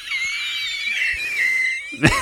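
Heavy, drawn-out exhale with a wheezing, whistle-like tone that holds for about two seconds, then ends in a short sharp burst.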